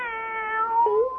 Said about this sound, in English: My very own cat.